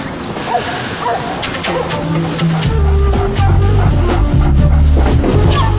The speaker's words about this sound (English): Taking the dog for a walk.